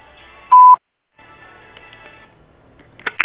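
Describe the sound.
A single short, loud voicemail beep marks the start of message recording and stands out alone, followed by only faint background noise.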